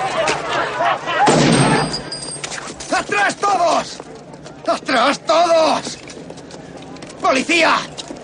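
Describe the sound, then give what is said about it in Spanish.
A single loud gunshot is fired into the air in a 1990 police action film. The sharp blast has a brief ringing tail, and people speak before and after it. “Al poco, David dispara al aire.”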